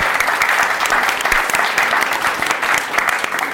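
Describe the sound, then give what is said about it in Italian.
Studio audience applause on a school radio program, a dense, loud and unbroken clatter of many hands that runs steadily from start to finish. “E rieccoci in studio con un grande applausometro.”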